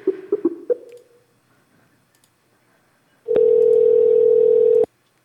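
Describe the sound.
A telephone call being placed again after the other person hung up: a few quick clicks of dialing, a pause, then one loud, steady ringback tone lasting over a second before it cuts off.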